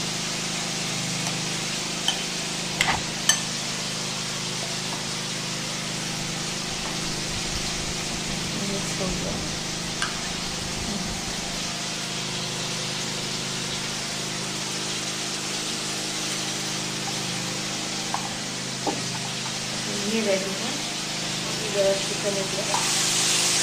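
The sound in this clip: Chicken sizzling in a pan while being stirred, a steady bright hiss that continues throughout, broken by a few sharp scrapes and clatters.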